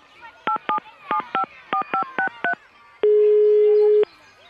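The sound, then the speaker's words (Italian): Telephone keypad tones as a number is dialed: eight short, evenly spaced beeps in pairs, then a single steady tone about one second long, with faint background noise between them. “io ho il numero di telefono di Wolfgang, basta chiamarlo per sapere a che punto siamo. Senti, te lo faccio fare qua in diretta?”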